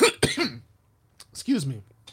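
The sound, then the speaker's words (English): Throat clearing comes in two short, rough groups of bursts separated by a quiet pause of about half a second. “I need to take a swig or something. I can clear my throat.”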